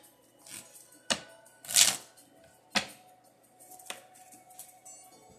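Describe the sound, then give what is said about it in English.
A playing card dropping to the floor during a card reading: a few sharp papery flicks and one brighter swish, spaced apart over a faint background hum. “Card fell on the floor. The card that fell on the floor was a Two of Hearts.”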